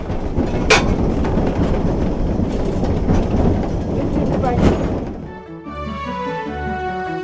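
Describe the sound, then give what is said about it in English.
A locomotive works hard on the Watercress line, on steep gradients in wet conditions, with heavy rhythmic clickety-clack and engine roar. The roar gives way near the end to a steadier tonal sound as a voice talks. “These locomotives can be challenging, especially in wet conditions, on a line with gradients as steep as the Watercress line.”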